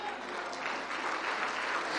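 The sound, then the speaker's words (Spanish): A church audience applauds in praise, a faint, steady patter of many hands clapping that grows slightly fuller toward the end. “Iglesia, un aplauso al Señor.”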